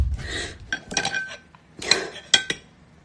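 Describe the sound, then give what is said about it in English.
A spoon clinks against a bowl of cereal at a table, giving a few irregular, bright clinks and light scrapes at a fairly quiet level. “she's sitting at a table eating a bowl of cereal when we find her in this Insta story.”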